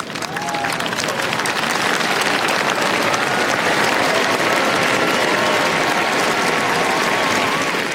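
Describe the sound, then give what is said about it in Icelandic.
A large crowd cheers and applauds the Norwegian royal family appearing on the balcony of the palace in Oslo, a loud, unbroken roar of clapping and voices that stays dense and even throughout. “Og síðdegis í dag kom konungsfjölskyldan á svalir hallarinnar og veifaði til mannfjöldan sem hylti hana ákaft.”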